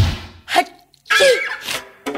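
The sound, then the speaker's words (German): A person sneezes in a drawn-out, multi-part way, breaking it into a few loud, voiced bursts separated by brief pauses, alone without other talk. “Oh, Sie niesen viersilbig.”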